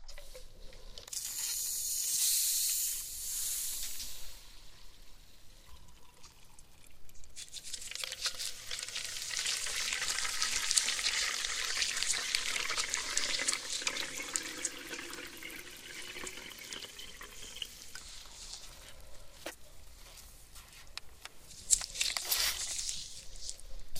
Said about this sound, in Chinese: 再加上汽水，使患者的头部在里面浸泡。